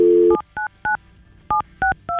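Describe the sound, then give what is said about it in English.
A telephone number is dialed for a call: a steady dial tone, then a series of short, clear keypad beeps in two quick groups. “We've got Taylor's phone number, and we're going to call her now.”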